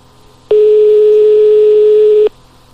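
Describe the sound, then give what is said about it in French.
A telephone line tone sounds as a call is placed to a nightclub: a single steady, mid-pitched beep that starts abruptly, holds for under two seconds, then cuts off, leaving faint background hiss. “On appelle le club discothèque.”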